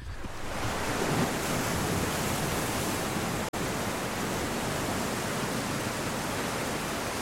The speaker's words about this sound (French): La mer, pas celle des cartes postales, la mer des hommes qui travaillent. La mer qui use, qui nourrit, qui engloutit.